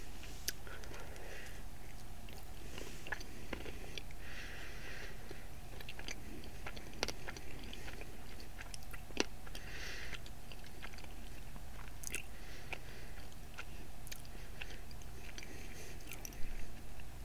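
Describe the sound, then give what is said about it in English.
Soft, quiet chewing of a doughy Dunkin' Donuts doughnut, with occasional crisper bites and moist, squishy mouth sounds repeating irregularly over a low background hiss. “Actually, this one tastes a little more doughy than I'm used to from Dunkin' Donuts.”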